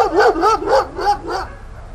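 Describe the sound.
A dog barks five times in short, tonal yelps at an even pace, then falls quiet, with no talk around it.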